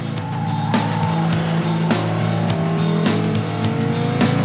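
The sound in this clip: A V10 race car accelerates hard off the start line with heavy wheelspin. Its loud buzzing engine tone climbs steadily, broken by four brief sharp breaks, and no voices are heard.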